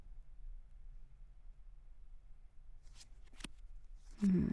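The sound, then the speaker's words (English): Playing cards being dealt, a few quick, faint snaps and flicks over near-silence, then a louder rustle at the very end. “Alright, deal the cards, come on.”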